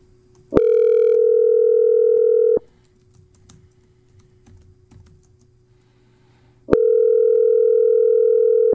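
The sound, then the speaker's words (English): Ringback tone of an outgoing telephone call: two long, steady buzzing tones separated by a few seconds of quiet with low background rumble. The second tone starts near the end and runs to the cutoff. No one speaks. “Are you calling the wrong number again?”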